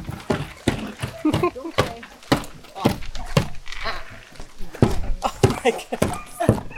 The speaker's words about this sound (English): This is the sound of a dog eating.